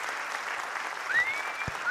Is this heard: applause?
yes